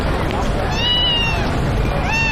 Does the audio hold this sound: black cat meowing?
yes